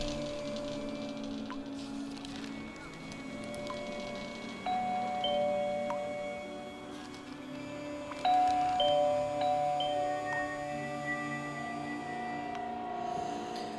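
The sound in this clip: A doorbell rings in a cold, damp two-room flat with mouldy wallpaper and a dripping pipe: two tonal rings sound over a steady background hiss, each lifting the level slightly and lingering.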